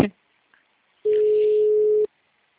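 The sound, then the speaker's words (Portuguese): A telephone tone sounds while a VoIP call is being placed: a brief click, then one steady, unbroken mid-pitched beep lasting about a second, with quiet around it. “Ai, dá pra ligar daqui, tomara que ninguém puxe meu VoIP.”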